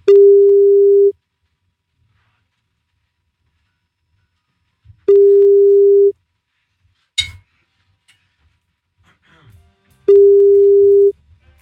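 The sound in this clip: Ringback tone of an outgoing telephone call: three steady, mid-pitched tones, each about a second long, separated by roughly four-second silences, with a sharp click in one gap.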